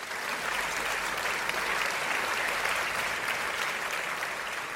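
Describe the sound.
Dense, sustained applause from a talk-show audience welcoming a pool trick-shot artist as a guest, even and unbroken clapping that continues throughout without a break.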